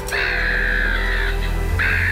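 A seagull calls with a loud, drawn-out nasal cry held for over a second, then a second cry begins after a short gap.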